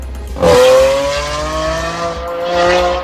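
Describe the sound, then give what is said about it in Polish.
Engine revving from a motorbike on a Warsaw city street during a protest against traffic noise. A loud surge rises in pitch and slowly eases, then a second swell follows. “Mieszkańcy Warszawy mają dość hałasu samochodów jednośladów. Dlatego wyszli na ulicę, żeby przeciwko temu zaprotestować.”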